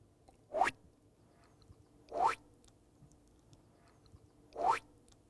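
Three springy boing-like jump sound effects made for a stop-motion film starring bread rolls. Each is a quick upward-sweeping twang, evenly spaced and heard alone without talk.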